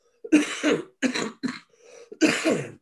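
A person coughs in a harsh, throaty fit of several bursts with short pauses between them, alone without talk.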